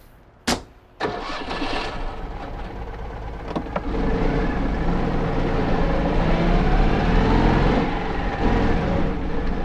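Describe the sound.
A car engine starts after a sharp thump, catching and settling into a steady mid-pitched running hum, then growing louder and fuller from about four seconds on as the car gets under way, with no talk.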